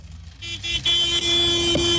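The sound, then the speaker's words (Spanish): A car horn honks in a loud, steady, sustained tone, held for over a second with a brief break, over low background rumble. “Así como mi compa accionando el claxon, compadre. ¡Pítale, pítale!”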